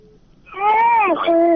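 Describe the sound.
An infant cries while a caller is on the line to a radio station, giving one loud, sustained, harmonic wail that swells after a short quiet start and then wavers and breaks.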